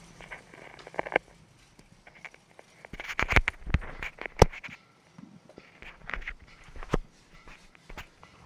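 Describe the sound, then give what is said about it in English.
Clicks and clunks of motorcycle gears shifting as a foot-operated shifter lever is worked, picked up through a contact mic: irregular sharp knocks and thumps scattered over a quiet, rustling background. “And what I wanna do next is hear the gears shifting. I'm gonna run the shifter, which is a little lever that you move with your foot.”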